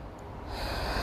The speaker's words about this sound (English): you might have to bring yourselves back a little bit because I just got lightheaded. You know, take a deep breath.